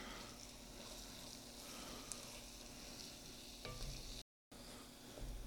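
Stirring a pot of venison Cajun piquant: soft, continuous scraping and light sizzling at low volume. The sound runs steadily, with a brief silent gap near the end.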